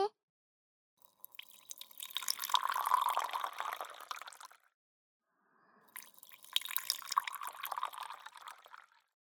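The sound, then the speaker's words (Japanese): Black tea poured from a pot into a cup in two separate pours, each a steady, trickling stream that swells and fades, with a short quiet gap between them. “さあさあ、紅茶ができたみたいだから注いであげようね。”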